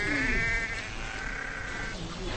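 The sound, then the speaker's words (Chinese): Ewe bleating while giving birth to a lamb on spring grassland with nomadic herders in Asia: a strained, drawn-out bleat that wavers and trails off over steady background noise. “在几个小时的挣扎和嘶嚎后，它终于生下了小羊羔。”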